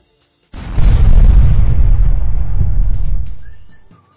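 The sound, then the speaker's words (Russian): A powerful explosion bursts in with a heavy, deep boom, then rumbles on loudly for about three seconds before dying away. “Взрыв был сильным.”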